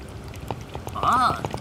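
Coconut water poured out through a hole drilled in the shell: a short, light trickle with scattered dripping splashes, marked by a brief voiced exclamation midway.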